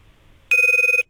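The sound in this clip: A single short electronic telephone ring, heard while a reporter is being called, sounds as one steady, loud half-second tone after near silence.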